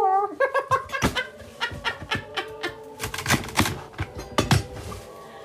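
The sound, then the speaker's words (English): A knife cuts through big celery stalks, a fast run of many crisp, sharp snapping chops in uneven rhythm, fairly quiet and with no voices. “I'm going to cut up celery. Look at those big stalks.”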